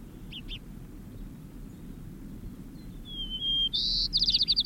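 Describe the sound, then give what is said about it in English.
A white-crowned sparrow sings: a clear, sustained whistled note followed by a rapid series of buzzy, trilled notes, fairly loud over a low steady background hum, with two brief faint chirps earlier. “White-crowned sparrow, eh?”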